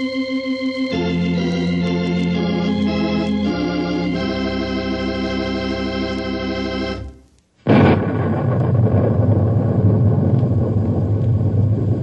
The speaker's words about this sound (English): I'm sure you recognize that sound you just heard. In fact, you can still hear it a little bit, I guess. It's thunder.